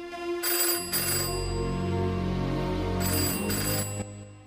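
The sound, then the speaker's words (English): A telephone rings in a pub in two bright, warbling bursts, the first early and the second near the end, over a sustained tonal background. “Laura runs over to the bar to answer the phone.”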